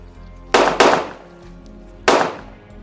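Three loud, sharp gunshots from ghost-removal guns. Two come in quick succession, then a third follows after a short pause, each with a brief decaying tail over a low steady hum.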